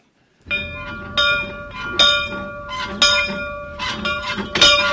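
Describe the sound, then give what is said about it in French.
Old bell from a family's dwelling house rung by hand, many bright metallic clangs at an uneven pace of roughly one a second, each ringing on with a shimmering tail, the last strokes coming faster and louder. “Cette cloche a appartenu à Flaubert. Oui, exactement, monsieur. Cette cloche était à la maison d'habitation de la famille de Flaubert.”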